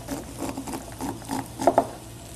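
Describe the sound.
A knife cuts fresh corn kernels off a husked cob that has been wiped clean of silk, giving soft, repeated scraping strokes followed by two sharper clicks near the end.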